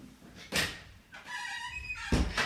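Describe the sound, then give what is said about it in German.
A window being closed in a rehearsal room: a dull thud, then a drawn-out creaking squeal as it moves, and a second, heavier thump as it shuts. “ich habe nur das Fenster zumachen müssen”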